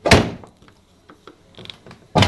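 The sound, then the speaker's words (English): A first-floor office door that tends to stick is forced open. A heavy thunk sounds at the start and another at the end, with faint scrapes and knocks between them. “The door to his first floor office has a tendency to get stuck.”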